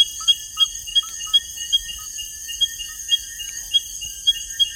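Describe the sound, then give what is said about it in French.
A midwife toad calls, a species that hides in low walls and under stones, giving many short, clear pips at a steady rhythm over a continuous high insect-like buzz. “le crapaud accoucheur est très très compliqué à dénicher, car il se cache le plus souvent dans les murets et sous les pierres. Il ne sort que très rarement, seul le trahit, ce petit chant joli.”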